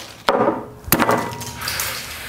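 Something wooden is smashed, with two sharp, splintering cracks about half a second apart, each followed by a short, rough clatter.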